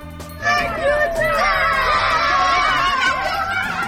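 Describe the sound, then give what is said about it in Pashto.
Children shout, scream and laugh as they play in fresh snow after a snowfall in Maidan Wardak province. Many high, overlapping voices keep up a continuous lively din throughout. “دا د هغو ماشومانو غږ و چې په دې ولایت کې د واورې ورېدو وروسته په واوره کې لوبې کولې.”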